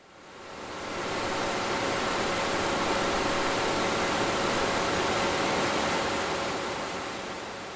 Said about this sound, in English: in front of a machine that I had no idea what function it served, only noticing that it was green and big and made of metal.